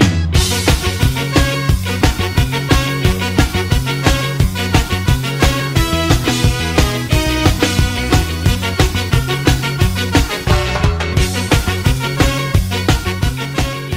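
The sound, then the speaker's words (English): Band music with two trumpets, a tenor sax, bass and drums playing together, loud and dense with a steady driving rhythm throughout and no voices. “I'm hearing tenor, possibly alto sax, and trumpet. I don't hear trombones here.”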